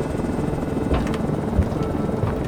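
Steady, rumbling aircraft engine roar during a rough takeoff on autopilot, with a few brief low thumps over the continuous drone.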